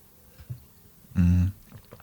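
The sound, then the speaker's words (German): A quick sip of a drink, heard as one brief, low, humming gulp that stands out from the otherwise faint background. “Kurz Schluck trinken.”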